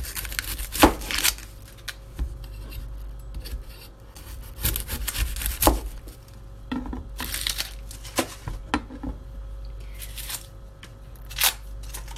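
Knife chopping onion in a kitchen: irregular clusters of sharp cutting strokes separated by quieter pauses.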